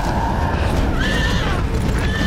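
A horse neighs and rears amid a battle between Greek and Persian fighters, giving a couple of high, wavering whinnies over a dense, steady rumble of noise.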